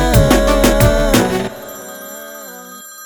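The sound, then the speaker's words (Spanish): Telephone ringing for an incoming call, bright repeated electronic ringtone pulses over a low rhythmic thump, then easing into softer held tones that linger after about a second and a half. “Otra llamada más, otro problema más.”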